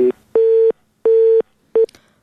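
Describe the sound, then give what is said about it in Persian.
Busy-signal tones sound on a phone line after a caller's call dropped during a radio call-in show: steady, low-pitched beeps in even on-off pulses, about four, with the first and last cut short. “متاسفانه برادر ما تماس گرفتن اما تماسشان قطع شد، شیرشان هم نیمه ماند، حرفایشان اصلا آغاز نشد.”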